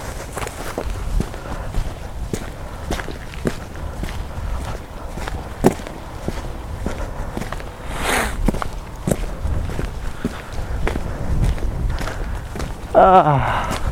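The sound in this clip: Footsteps on an outdoor walk: many evenly paced steps in a steady rhythm, moderately loud, with a brief rustling burst partway through and a few heavier scuffs near the end.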